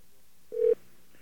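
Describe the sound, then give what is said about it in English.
A single short touch-tone keypress beep from a telephone being dialed. It is steady and mid-pitched, lasts a fraction of a second, and sits alone over faint background hiss. “All right, now we're dialing the... secret number.”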